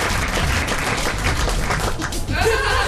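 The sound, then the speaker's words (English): Audience applause at a comedy night greets a comedian coming on stage: a dense, steady wash of clapping that stays loud and even throughout. “Next up here, ladies and gentlemen, come out and give it up. Welcome to the stage, it's Frasier! Come on, Frasier! All the way!”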